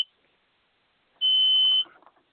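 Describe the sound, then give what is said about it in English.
A single steady, high-pitched electronic beep lasts about two-thirds of a second and stands alone against near silence, with a tiny click at the very start. “We seem to have a little beeping sound in the show”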